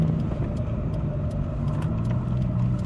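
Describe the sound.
Car engine and road drone while driving in slow, crowded traffic and merging onto an expressway. A steady low rumble holds throughout, with faint, brief higher noises flickering above it and no voices.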